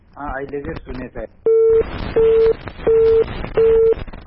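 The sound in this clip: Telephone busy signal after a call was cut off: after some talk, four regular mid-pitched beeps sound at an even on-off rhythm, a fifth begins at the end, and noise fills the gaps between them.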